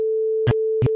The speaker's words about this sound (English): select such portion of the audio and then go to Generate and then Tone. And then it would sound something like this.